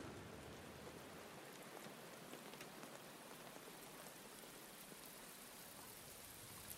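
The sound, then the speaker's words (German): Steady rain, a continuous even hiss with scattered pattering drops throughout, fairly quiet and unchanging, with no voices. “Dieser Klang. Regen.”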